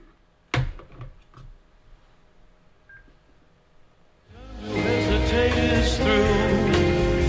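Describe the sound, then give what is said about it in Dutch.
Telephone dialing as someone calls a person again: a few short clicks and a brief beep over quiet background, then loud music takes over for the last three seconds. “Ik ga hem weer opnieuw bellen.”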